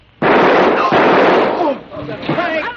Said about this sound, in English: I just shot Soapy Smith.